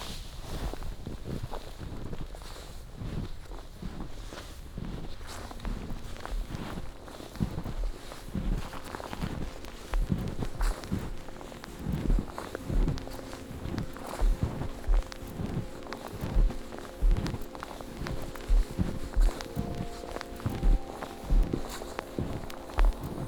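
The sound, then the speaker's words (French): Footsteps of a hiker walking fall in a steady, even rhythm throughout, with a constant rumble of wind noise on the microphone. “Allez, on va reprendre la marche.”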